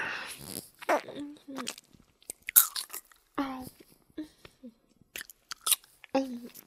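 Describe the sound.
Someone chews and crunches a lollipop, producing a series of sharp, irregular bites and crunches. The sounds come in short bursts separated by near silence, some crisp and louder, others faint.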